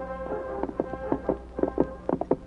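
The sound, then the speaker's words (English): Hoofbeats of three horses being ridden, many uneven clopping strikes in a loose rhythm that grow busier toward the end. “Slim Northcott and his two companions rode east to await the eastbound locomotive and tender”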